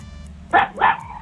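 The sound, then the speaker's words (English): A dog barks twice in quick succession, two short, fairly loud mid-pitched yaps over a low background hum. “Not the dog. The dog's trying to answer.”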